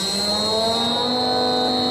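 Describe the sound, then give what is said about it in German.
A newly built hydraulic power unit hums steadily on a test-run station, a continuous, unchanging drone layered with a sharp high whine and several steady tones. “Das ist eine Station, in der wir den Probelauf machen für unsere Hydraulikaggregate, die wir bauen.”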